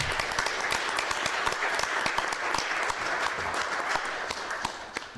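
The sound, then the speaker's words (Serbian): An audience applauds at a book presentation in Banja Luka with steady, dense clapping for about five seconds that tapers slightly at the end. “I molim vas zato jedan aplauz sa mnom za.”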